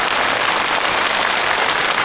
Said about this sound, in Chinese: 鼓掌鼓掌鼓掌，